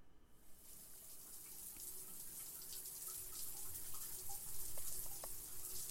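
Shower water running: a faint, steady hiss of spray with a few small splashes and drips.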